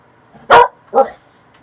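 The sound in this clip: Two sharp barks from a dog, the second slightly softer after a short gap, standing out against near silence.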